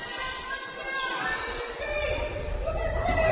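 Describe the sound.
A basketball is dribbled during a game between the Cardinals and Merrill. A few low bounces thud under a commentator's voice and steady crowd noise that swells toward the end.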